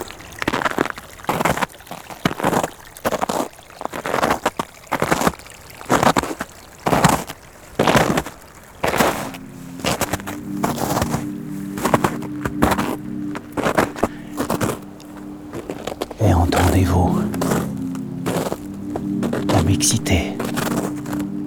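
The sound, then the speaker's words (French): Ice and water sounds on icy snow patches: loud crunching and scraping bursts repeat in a steady, regular rhythm, with faint sloshing between them. “Ces sons, un peu de glace, des bruits d'eau, parfois discrets”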